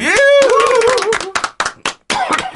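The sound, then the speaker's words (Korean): Applause for a guest on a Korean film talk show: hands clapping in a busy burst, with voices calling out over it early on, then breaking into scattered, uneven claps that trail off. “길게 우리 설명해 주신 마사오님께 박수로”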